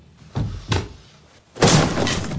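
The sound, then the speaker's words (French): A chair is smashed by the character De Gaulle at the end of a film argument scene: two dull thuds, then a loud splintering crash that trails into sustained rattling debris. “à la fin de la scène, votre personnage De Gaulle casse une chaise”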